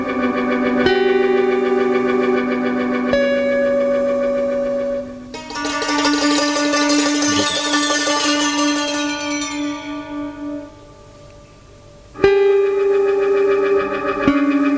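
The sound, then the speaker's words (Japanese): Distorted electric guitar in a dissonant insert song: sustained, effects-laden chords give way to a harsh, bright noisy passage, then a near-silent pause before the droning tones return. “ここはエレキだよね。”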